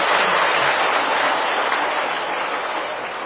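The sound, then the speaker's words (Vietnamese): Audience applause at a Buddhist dharma assembly in a monastery lecture hall, dense and even clapping that eases off slightly toward the end. “Xin một lần nữa mời toàn thể pháp hội cho một bàn pháo tay thật là hoan hỷ.”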